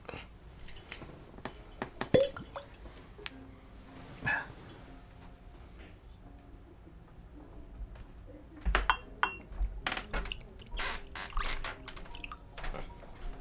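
Light whiskey aged thirteen years poured into a glass while being proofed down with water: faint scattered clinks and taps of glass with soft liquid trickles, growing busier toward the end.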